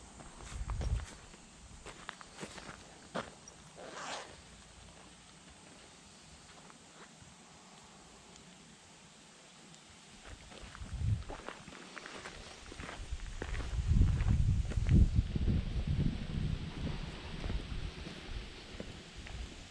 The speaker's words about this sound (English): I've just surpassed the halfway point. So now I turn back and walk towards my originating